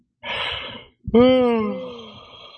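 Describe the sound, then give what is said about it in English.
A person yawns with a breathy intake, then a long voiced exhale that slides down in pitch and fades out. “You're yawning.”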